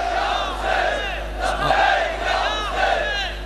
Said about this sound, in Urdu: یہ چند نعرے، ایک منٹ، یہ بہت بڑا اجتماع ایک پیغام دے رہا ہے